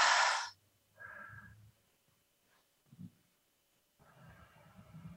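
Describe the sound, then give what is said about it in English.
Deep breaths drawn in through the nose and let out through the mouth come as a few airy, breathy gusts with quiet pauses between them. The first gust is the loudest. “let's take in three deep breaths in through our nose and out our mouth.”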